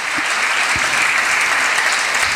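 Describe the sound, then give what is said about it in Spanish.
A crowd gives loud, sustained applause during a church service. The dense, even clapping holds steady for the whole stretch, with no voices standing out above it. “Fuertes aplausos al Señor, mi hermano.”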